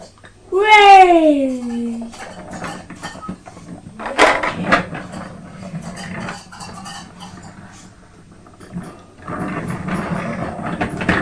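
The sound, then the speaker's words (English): A cat meows to ask for food: one clear, drawn-out meow at the start, loud and tonal, followed by quieter household knocks and rustling. “She's meowing.”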